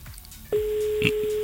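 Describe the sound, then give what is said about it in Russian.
Telephone line tone heard while waiting on a call: a brief quiet stretch, then a single steady mid-pitched tone that holds unbroken to the end over faint background hiss. “Еще гудок я все-таки подожду.”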